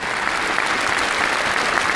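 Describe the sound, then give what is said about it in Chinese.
Warm audience applause, a dense, continuous roar of many hands clapping at an even, strong level for about two seconds without a break. “感谢大家伙热烈的掌声，”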